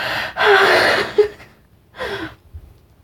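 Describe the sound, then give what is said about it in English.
A deep, loud breath lasts nearly a second, then a shorter, softer breath follows after a pause. “Deep breath.”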